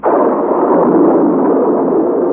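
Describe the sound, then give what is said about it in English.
A storm bursts in a sustained, loud roar of rushing wind and rain, a thick, steady wash of noise that holds its level for the whole stretch. “The professor had scarcely spoken when the storm burst.”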